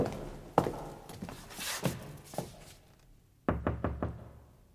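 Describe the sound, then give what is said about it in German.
Knocking on a thick oak door: a few dull, heavy thuds give way to a quick, tight cluster of solid knocks near the end, moderately loud with nothing else alongside. “Peston führte uns zu einem Zimmer mit einer dicken Eichentür und klopfte.”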